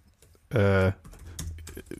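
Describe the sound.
Keys clicking softly on a computer keyboard as a comment is typed, broken by a brief loud hum, with people talking around it.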